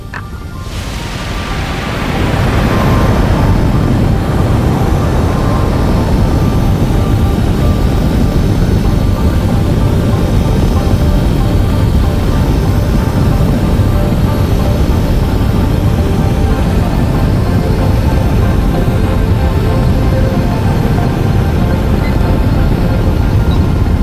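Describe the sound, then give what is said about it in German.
Rocket engine roar as the second stage ignites during a launch, swelling over the first couple of seconds into a loud, deep, unbroken rumble that stays steady to the end. “Wurde gerade mitgeteilt, dass Stufe 2 soeben gezündet wurde.”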